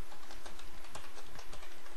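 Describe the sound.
Computer keyboard typing as a query is entered, with many quick, irregular keystroke clicks running steadily through the whole clip and no voices.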